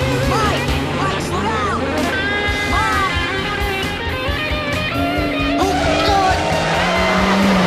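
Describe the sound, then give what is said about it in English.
A car swerves and skids along a road, its tires squealing over a loud, dense roar of engine and other sound that runs without a break. “loses control and the car turns onto its side, still skidding along the road.”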